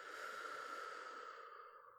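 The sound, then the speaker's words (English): Slow, deep breathing during a guided breathing exercise: one long, steady, airy breath holds evenly, then gradually softens and fades. “Breathe in. 1, 2, 3. And out.”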